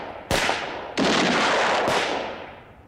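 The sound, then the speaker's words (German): Three sharp, loud gunshots crack out one after another, with a dense, lingering noisy tail after the second shot. “Klar schießen die. Die müssen doch schießen.”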